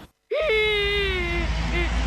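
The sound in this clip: A voice crying in a skit about recycling used batteries: after a brief silence, one drawn-out wailing whimper that holds a steady pitch and then tapers off, followed by a fainter short sob.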